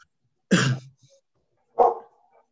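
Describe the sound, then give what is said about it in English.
A pet dog barks twice, two short gruff barks a little over a second apart, each ending quickly, heard alone with no other sound between them. “I think your dog is making some issues.”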